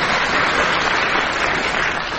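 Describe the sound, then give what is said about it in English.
A game show studio audience applauds the panellists, a thick, even wash of many hands clapping loudly without a break. “they would like you to applaud them now,”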